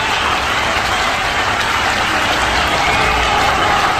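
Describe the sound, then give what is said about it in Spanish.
Applause breaks out as a morning mini concert begins, a dense, even wash of clapping that holds at a steady loud level for the whole stretch without pauses or distinct single claps. “este efecto que escuchamos al fondo, ¿qué? Esos son aplausos”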